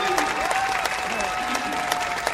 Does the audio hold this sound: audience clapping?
yes

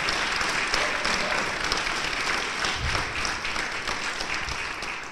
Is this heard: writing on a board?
no

